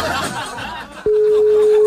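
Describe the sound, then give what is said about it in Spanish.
A telephone being dialed for a call: after a stretch of faint murmuring, a steady, unbroken tone cuts in abruptly and holds to the end. “lo vamos a llamar acá al aire. Ahí estamos marcando para...”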